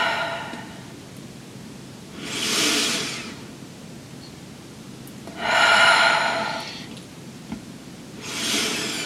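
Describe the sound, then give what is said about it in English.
Deep breaths drawn in during a guided breathing exercise: three slow, airy, breathy inhalations, each lasting about a second and evenly spaced, rising to a moderate level between long quiet gaps, with no talk. “Deeper breaths in as your capacity builds. You should be able to take deeper and deeper breaths in.”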